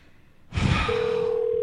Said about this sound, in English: That's the phone. That's the phone. I know it's across the room.